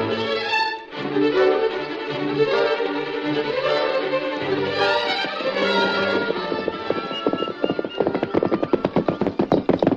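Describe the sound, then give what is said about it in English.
Hoofbeats of a horse being ridden into a canyon, a brisk, regular clip-clop that grows sharper and more distinct toward the end over a sustained tonal background. “I thought I heard someone riding into the canyon.”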